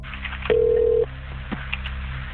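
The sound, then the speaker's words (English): A telephone ringback tone as police call a woman's phone, which goes to voicemail: one steady mid-pitched tone about half a second long over a low hum and a few faint clicks. “Minutes later, they tried Arcelle's number a third time and again got her voicemail.”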